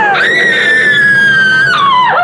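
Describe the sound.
A character screams in panic: one long, loud, high-pitched scream that rises at the start, holds its pitch, then dips and briefly climbs again near the end.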